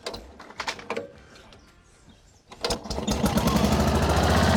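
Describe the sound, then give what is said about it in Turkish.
A rototiller's small engine is pulled to start: irregular sputtering bursts, a brief lull, then a catch into a steady, loud running drone that builds and holds to the end. “Ben rotavatörle boğuşurken diğerleri işi hallediyor. Hadi bakalım, çalışacak mı görelim.”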